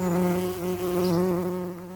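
Wild pollinating insects buzz around an abundance of flowers in a steady, low droning hum. The pitch wavers slightly and the sound continues alone, with no pauses.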